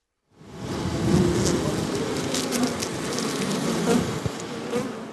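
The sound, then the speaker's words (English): Thousands of bees buzz around two small wooden hives on a soil-and-plant green roof, a dense, steady droning hum that swells slightly and continues without pause. “Our so-called green roof, covered with soil and plants, as of yesterday, houses two small wooden hives with over 20,000 bees.”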